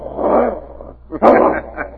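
A dog growls in two rough, throaty bursts, the second starting more sharply and louder than the first. No one speaks.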